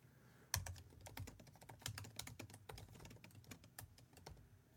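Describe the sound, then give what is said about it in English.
Typing on a computer keyboard: many quick, irregular keystrokes clatter along steadily, faint and without any voices. “I had to just type that in my computer because I did not want to forget that.”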